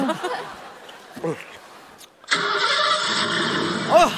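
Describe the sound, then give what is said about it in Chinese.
A car engine cranks and catches partway through, then runs at a steady, loud, broad roar to the end. The car is being started for an early drive to the airport after a driver's all-night shift, and brief voices are heard before it starts. “能行，要不先把车启动一下呢？”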